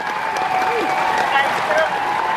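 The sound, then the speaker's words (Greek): An audience applauds a guest. The clapping is dense and steady from start to finish, and someone talks over it. “Τούτον το χειροκρότημα ρε για σένα.”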